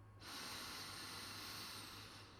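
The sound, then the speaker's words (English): A deep inhaling breath drawn slowly to the bottom of the lungs, heard alone as one long, steady, airy rush that begins abruptly and holds even in strength for about two seconds. “Begin by inhaling a deep breath to the bottom of your lungs.”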